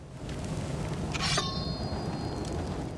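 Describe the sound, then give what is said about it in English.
A sword is drawn from its sheath as a warrior readies for battle: one bright metallic scrape ending in a thin, lingering ring, over a steady background hiss. “The creature is battle-ready. Gorm unsheathes his sword.”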